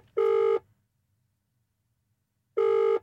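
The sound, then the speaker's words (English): Ringing tone of a phone call placed to a guest who had missed a pre-recorded chat: two steady, buzzy tone bursts, each under half a second, separated by a long silent gap, with no voices. “he's not here for this pre-recorded chat to be on the show. So let's have a quick ring.”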